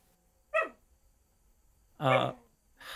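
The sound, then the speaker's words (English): A dog barking in its sleep: two short, muffled woofs separated by a pause, with a third soft bark just beginning at the end, otherwise quiet. “Barking in his sleep.”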